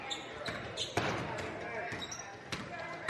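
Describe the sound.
A basketball is dribbled on a court during a game, with a few bounces sounding under steady crowd noise and voices.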